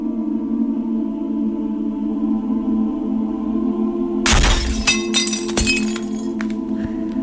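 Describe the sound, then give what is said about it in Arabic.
A glass cup shatters in a sudden loud crash, followed by a second sharp crack and scattered tinkling shards, breaking into a steady low, ominous drone that hums throughout. “سمعت صوت الكسر ده، كاس ازاز بيتكسر”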